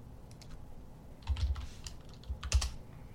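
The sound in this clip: Computer keyboard typing: quiet clicking keystrokes arrive in a few quick bursts, with no talk.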